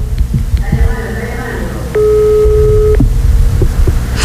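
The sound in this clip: A ringback tone sounds on an outgoing telephone call: one steady electronic tone lasting about a second, over a background of voices and noise.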